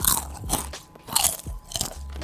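Doritos chips crunch during mukbang-style eating: loud, crisp bites and chews come in uneven bursts with short pauses between them.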